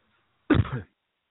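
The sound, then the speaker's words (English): A single brief throat clearing, one short, rough, cough-like burst standing alone with silence before and after. “I'm sorry about that. I had a little tickle in my throat here”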